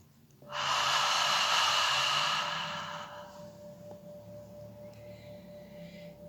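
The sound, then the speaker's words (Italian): A person breathes in slowly and loudly through a guided breathing exercise, then lets the air out in a softer, longer exhale, with a faint steady hum underneath. “Inspiriamo ed espiriamo.”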